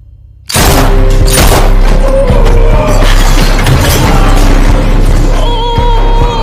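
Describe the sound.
Heavy fire from a large gun breaks in abruptly after a brief near-silence, becoming a loud, dense, continuous barrage of booms and crashing, shattering impacts that runs unbroken to the end.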